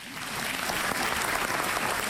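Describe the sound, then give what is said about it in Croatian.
An audience applauds a long-standing retirement home introduced during a stage event. The clapping swells slightly, then holds dense and even until the end. “Molim vas da pljeskate.”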